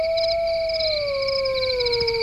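A wolf howls in one sustained, slightly falling tone, steady and fairly loud above a faint background hiss.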